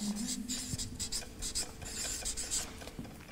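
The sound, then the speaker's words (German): Faint, scratchy rasping strokes of a word being written by hand, soft irregular rubs following one another with brief gaps. “Ich schreibe jetzt mal nur ausharren, ja?”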